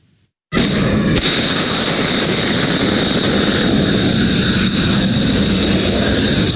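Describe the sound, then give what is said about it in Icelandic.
Missiles launched from U.S. warships toward Iran: a sudden loud blast erupts, then a powerful, sustained roar holds steady for several seconds. “Þetta úr myndskeiði sem bandaríski herinn birti af flaugum sem skotið var frá herskipum að Íran.”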